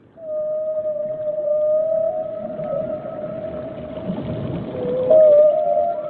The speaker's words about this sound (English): This is a subaquatic one without animals. And this is the same subaquatic with animals.